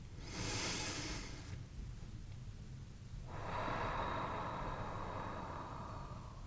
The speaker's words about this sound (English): I invite you to take a breath with me as we transition back.